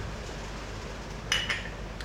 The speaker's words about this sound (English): Give it a little stir. We like stirring espressos up.